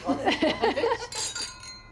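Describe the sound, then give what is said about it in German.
Glasses clink together in a toast over a shared meal. After a moment of voices talking, a brief, bright ringing chime lingers and fades. “Also lass uns mal erstmal anstoßen.”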